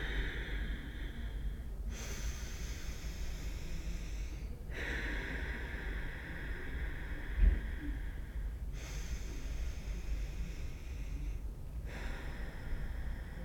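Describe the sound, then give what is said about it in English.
Slow, deep breathing, a few long, steady breaths separated by brief pauses, breathy and moderately loud over a constant low background hum. “The first step is with three deep breaths, we are going to raise everybody's vibrational frequency.”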